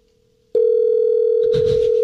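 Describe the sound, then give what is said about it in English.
A steady electronic tone on a telephone line while a call waits to be answered. It starts suddenly and holds at one constant pitch, with a short burst of rustling noise over it near the end. “Oh, please answer. He'll answer. He's got a wheels off voicemail. Oh, I hope we don't go to voicemail.”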